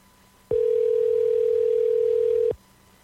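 A single ringback tone on an outgoing phone call: one steady, clean mid-pitched tone lasting about two seconds. It starts and stops abruptly over faint line hiss.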